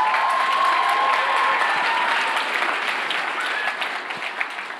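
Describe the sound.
A church audience applauds during a Palm Sunday service, a steady, dense wash of clapping that runs throughout and eases slightly toward the end.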